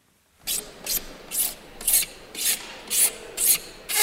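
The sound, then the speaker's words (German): A file rasps in an even rhythm in convention halls being prepared in Madrid for a summit, with eight scraping strokes evenly spaced and alone. “In den Hallen wird noch gefeilt und gehämmert.”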